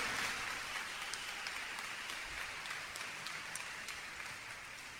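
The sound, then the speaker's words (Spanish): A church audience applauds with steady, dense clapping that carries on evenly from start to finish at a fairly soft level, with no voices over it. “Mis hermanos, mis hermanas, ese aplauso es para el de arriba, ¿eh?”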